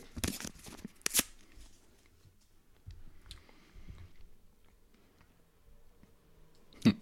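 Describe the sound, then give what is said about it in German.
A paper envelope is torn open with crisp, papery rustling. The loudest tearing bursts come at the start and the end, with quieter crinkling in between. “Umschlag 3. Also. Den mache ich jetzt auf.”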